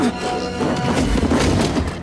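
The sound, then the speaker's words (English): A fight scene in which the android Data hurls a Borg into several others and knocks them to the ground: heavy, low thuds and crashes land near the middle over a dense, noisy bed. “Data throws one Borg at several others, knocking them to the ground.”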